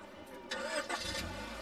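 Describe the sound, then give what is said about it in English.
A car engine starting beside a school: a brief crank that quickly catches and settles into a low, steady idle rumble, faint and short, with no voices. “She sighs and starts the car.”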